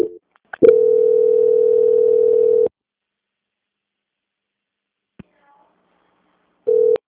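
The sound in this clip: A steady low telephone tone drones for about two seconds while a call is transferred to quality control, after a couple of clicks. Then comes a long silence with a faint click, and the same tone returns briefly at the end.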